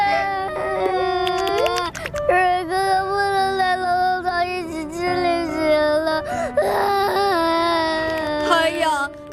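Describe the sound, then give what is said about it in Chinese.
Crying and wailing from several voices: sustained, tonal sobs with wavering, gliding pitch that continue loud throughout with no break. “别哭了，咱们再想想办法。 龙龙草，你看大家多爱你啊，每个人都为你而哭了。”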